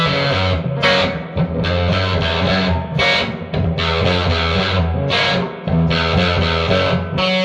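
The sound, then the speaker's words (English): Electric guitar through an octave-only fuzz pedal in humbucker mode, heavily distorted and buzzy, playing loud sustained riffs broken by a few brief gaps. “It's like having an octave only fuzz set, you know? Let's turn it on humbucker mode.”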